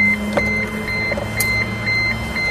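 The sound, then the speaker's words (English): Small servo motors in a car whir after the ignition is switched on. A steady electric whine and hum carries a faint, evenly repeating high beep, with no voices. “Just listen to all these little servo motors. Mm-hmm. I'll turn the ignition on.”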